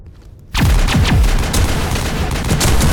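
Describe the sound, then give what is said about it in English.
Soldiers' gunfire in transmission footage from a video game, bursting in abruptly after a brief quiet moment, then loud, dense rapid shots mixed with heavy booming blasts that continue without pause. “See hazy video footage. Get down! There's soldiers shooting at something? It's unclear.”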